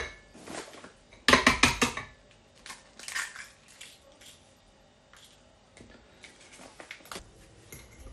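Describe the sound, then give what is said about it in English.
A crunching crack as an egg is broken open into a mixing bowl holding suet for a pudding, a sharp loud burst followed by several quieter taps and clinks. “I'm just going to crack an egg open.”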